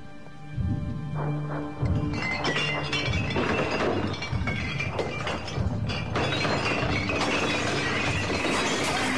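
Glass liquor bottles clink and smash as they are pushed off a shelf: a loud, dense run of crashes, shattering and clattering glass with many sharp impacts.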